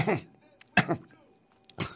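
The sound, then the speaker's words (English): Throat clearing at a microphone, heard as three rough, gravelly bursts spread over two seconds, the middle one the sharpest, with quiet gaps between them. “I always had to clear my throat after putting it on wax.”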